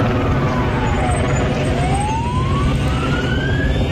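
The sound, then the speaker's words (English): Emergency sirens wail during a street disturbance in Newtownabbey, County Antrim, with water cannons in use nearby. The siren tone sweeps down and then climbs again over a dense, constant low roar that never lets up. “That's the noise of helicopters and sirens last night in Newton Abbey in County Antrim”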